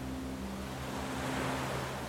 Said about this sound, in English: And the waves from the ocean are coming in and moving out